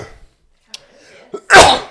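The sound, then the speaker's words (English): A single loud, sharp sneeze bursts out after a couple of faint clicks and a brief catch of breath, then quickly fades to silence. “Fucking hell, that was a sneeze.”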